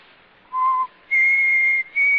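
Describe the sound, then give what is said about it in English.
A person whistles three clear notes. The first is short and lower, the second is longer and held at a higher pitch, and after a brief break a third returns at that same higher pitch. “I just whistled.”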